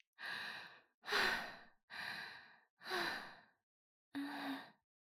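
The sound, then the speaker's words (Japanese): Deep breathing to calm down: five long, breathy sighs, separated by short silent pauses, with a longer gap before the last one. The sighs are soft and airy, with no speech. “まずは落ち着かないと。深呼吸、深呼吸。”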